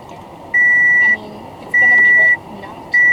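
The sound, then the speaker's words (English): Electronic beeping from a car: three steady, mid-pitched tones, each lasting about half a second, evenly spaced and equally loud over a low background rumble. “Sorry for the beeping. Yeah. Shut up, car.”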